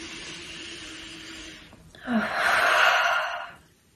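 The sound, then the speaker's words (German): A deep breath taken together: a long, steady, airy stream of breath, a brief pause, then a louder rushing breath that swells and then dies away. “lass uns gerade mal zusammen einen Atemzug nehmen.”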